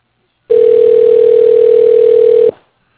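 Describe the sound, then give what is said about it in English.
A telephone line tone plays while a call is transferred to voicemail: one steady, loud, unbroken beep lasting about two seconds, then silence. “Let me put you through to his voicemail. Sure, that'll work. All right. Hold, please. I'll transfer you.”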